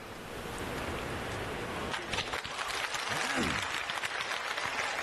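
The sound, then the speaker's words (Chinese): An audience applauds at a Chinese crosstalk comedy performance, with a steady wash of clapping that swells early on and continues, and a brief vocal sound partway through. “谢谢大家伙儿的掌声鼓励。 哎，感谢诸位。”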